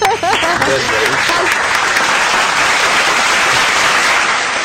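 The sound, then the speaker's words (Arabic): A studio audience applauds a game show contestant with dense, loud, steady clapping that continues unbroken throughout. A voice is heard briefly at the very start. “حطوا برافو سقفوا عليها”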